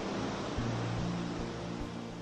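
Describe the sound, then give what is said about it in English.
Gentle waves lap at a sandy shore as a steady, faint wash of noise with no clear breaks. “And now observe the peaceful waves gently lapping at the shore, washing gently onto the sand before receding back.”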